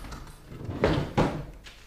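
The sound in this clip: A desk drawer being opened after it is unlocked with a key: two short wooden scraping knocks close together, moderately loud, with quiet handling noise around them.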